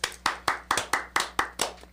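Hands clapping in a steady, even rhythm, with many sharp claps evenly spaced over two seconds at a moderate, unchanging loudness and no voices.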